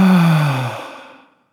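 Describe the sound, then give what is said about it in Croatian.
A strong, deep exhale, a loud breathy sigh heard alone that trails off and fades to silence within about a second and a half. “Napravit ćemo jedan duboki udah sa snažnim izdahom.”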